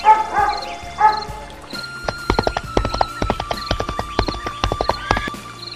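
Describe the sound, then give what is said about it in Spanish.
A horse gallops in a rapid, uneven run of many sharp hoof clip-clops that stays lively to the end. Two brief animal calls come just before the hoofbeats start. “el galope de caballo”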